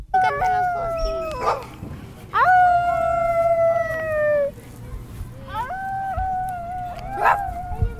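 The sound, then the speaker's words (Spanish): Children imitating howling with their voices: several high, wavering howls that overlap and swell, over a low background hum. “unos niños que se encontraron y de repente empezaron a aullar”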